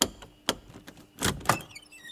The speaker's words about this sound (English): Well then, try tinkering with the door handle. He'll never open the door!